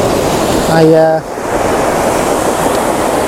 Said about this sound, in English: Because down here, in the spray of the waterfall, it's quite chilly.